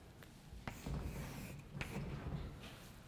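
Faint scratchy writing strokes on a board as an index is added, soft continuous rubbing broken by a few sharp taps of the writing tool.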